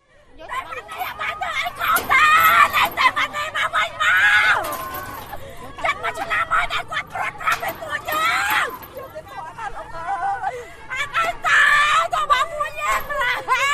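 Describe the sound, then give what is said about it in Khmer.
Land activists from the Boeung Kak area scream and wail outside the entrance gate of the appeal court on a Tuesday morning. Many voices overlap in loud, continuous crying and high-pitched screams that rise and fall in waves. “សកម្មជនដីធ្លីមួយចំនួននៅតំបន់បង្កក់ស្រែកទ្រហោយំនៅមុខច្រកទ្វារចូលរបស់សាលាឧទ្ធរណ៍នាព្រឹកថ្ងៃអង្គារនេះ”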